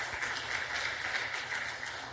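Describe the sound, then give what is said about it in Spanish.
A church audience claps as an offering of applause to God, making a dense, steady rush of many hands that stays faint and even throughout. “Dale una ofrenda de palmas al Dios de la gloria.”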